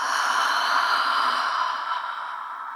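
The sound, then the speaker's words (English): A deep breath is drawn in through the nose and let out through the open mouth, heard as a long, steady, airy rush that gradually softens and fades over about three seconds. “Let's begin by taking a full inhale through your nose and open your mouth, let it go.”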